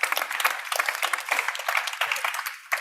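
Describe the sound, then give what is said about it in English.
An audience applauds to welcome a speaker at a panel event, with dense, steady clapping that holds at an even level throughout. “Please give a big hand.”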